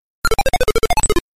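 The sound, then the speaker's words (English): Robotic blips from an old home-finance program's main menu loading on a computer booted from disk: fourteen quick, evenly spaced tonal beeps that jump between pitches, clear and fairly loud, with nothing else heard. “So what you just heard was the menu. Every time the menu loads, you get that nice little robotic sound.”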